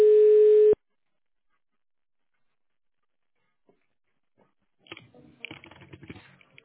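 A telephone line tone sounds while a call connects: one steady electronic beep lasting under a second, then silence, then faint scattered clicks and rustling.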